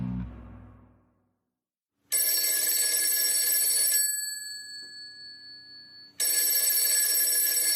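A telephone rings on an outgoing call with two loud, bright, buzzing ring bursts of about two seconds each, separated by a quieter pause.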